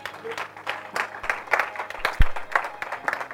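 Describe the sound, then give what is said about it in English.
A church audience claps together in a steady rhythm. Many hands beat in regular bursts with a soft crowd murmur beneath them. “Y'all can clap. I'm going to clap.”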